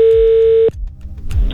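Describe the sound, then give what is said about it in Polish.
A telephone dial tone sounds as a call is placed: a steady, loud, unbroken tone holds for about 0.7 seconds, then cuts off abruptly, leaving faint handling noise. “Akurat teraz mówiliście, więc ja wykręciłem numer, więc dzwonimy do Roberta Burnejki.”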